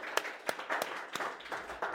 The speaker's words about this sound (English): I love a good audience clap. Absolutely. It's the real thing, too. It's not AI. We got a real audience, real brains and atoms going on in the room.